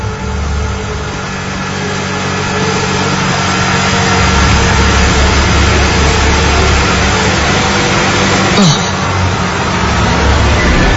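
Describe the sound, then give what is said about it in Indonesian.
A motorbike engine labours under a heavy load: a dense, low, droning hum that grows louder after the first couple of seconds, then holds steady and unbroken to the end. “Namun tiba-tiba, aku merasakan motorku jadi berat.”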